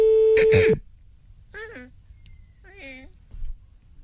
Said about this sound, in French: Allez, c'est parti, on appelle. Je sens que ce soir, je vais avoir de la chance.